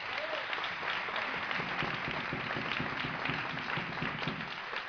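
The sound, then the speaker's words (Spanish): A concert audience applauds as a guitarist playing with the band for the first time is introduced. Thick, continuous crowd clapping sounds somewhat muffled and stays even throughout the five seconds. “David Venegas, un aplauso para él.”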